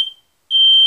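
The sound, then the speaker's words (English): A smoke detector alarm gives shrill, piercing, high-pitched beeps: one fades out quickly, then after a short gap a second starts and holds steadily, loud and alone. “Yeah, that sound is annoying as Hades when you're cooking, but in the middle of the night, it's a lifesaver. Having a smoke detector in the house will reduce your chances of dying by 55%.”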